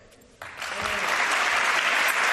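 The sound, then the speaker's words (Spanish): Applause at a small, private farewell gathering for a departing football player from his club. Near silence gives way to a sudden burst of clapping that swells and then holds steady and full. “Karim Benzema, que se despedía con este aplauso de los suyos en un acto restringido, privado, pequeño”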